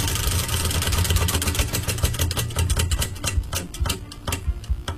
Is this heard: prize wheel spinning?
yes